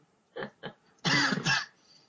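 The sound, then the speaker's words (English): A tickly cough: two short, light coughs followed by a louder, longer rasping throat-clearing in two pushes, heard alone without talk. “No, it's because I've got a tickly cough.”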